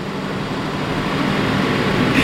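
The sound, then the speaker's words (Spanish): A power generator runs with a steady mechanical hum and low drone at an even, unbroken loudness. The generator supplies power to a University of Seville Faculty of Communication building. “Este es el que da ese pequeño servicio a un centro de la Universidad de Sevilla, Facultad de Comunicación. Sonido de un generador.”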